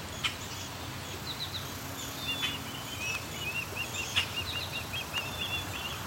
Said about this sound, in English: This osprey is non-stop calling.